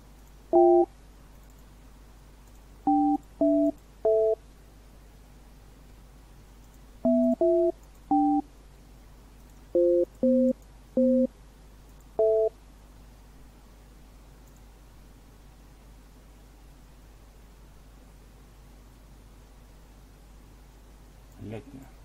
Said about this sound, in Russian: Почитай, пока я набираю номер.